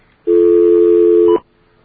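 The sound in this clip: A telephone being tone dialed: one loud, steady electronic keypad tone held for about a second, then cut off abruptly, with no voices.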